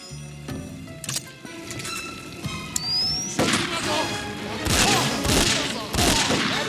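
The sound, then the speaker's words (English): Magnum handgun shots in a video game: several sharp, booming reports at irregular intervals, the later ones louder and heavier, set against a continuous game soundscape. “Let's jump to the Magnum on this one.”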